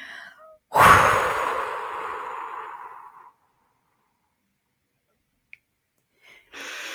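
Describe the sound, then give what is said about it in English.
A single forceful exhale during a breathing exercise bursts out sharply and trails off in a long, fading breathy rush over a few seconds, then gives way to near silence broken by a brief faint click and the onset of another breath. “The first thing we do is exhale. We exhale forcefully.”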